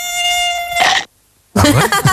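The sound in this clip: A mosquito buzzes in the dark with a thin, steady, high-pitched whine for about a second, then cuts off abruptly. After a short silence, a louder and rougher animal-like sound follows.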